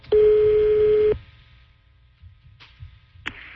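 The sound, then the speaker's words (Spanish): A telephone line as a call is dialed: a loud, steady single dial tone holds for about one second, then cuts off, leaving faint low clicks and a couple of short bursts of line noise. “Estoy marcando.”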